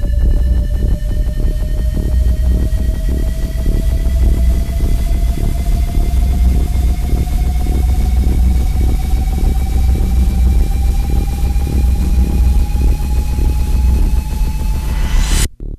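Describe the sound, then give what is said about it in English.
A science-fiction jump drive powers up as a loud, steady mechanical hum with several layered tones slowly rising in pitch for about fifteen seconds, then cutting off abruptly. “Activating jump drive.”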